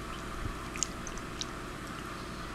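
Chewing on fresh-picked green lettuce just clipped from the plant: a few faint, crisp crunches over a low steady background, with no talk.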